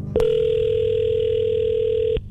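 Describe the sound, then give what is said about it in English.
A telephone call rings as it connects: one steady electronic ringback tone lasting about two seconds, even and continuous, with faint clicks where it starts and stops. “We get the expert on the phone, Mike Bryant”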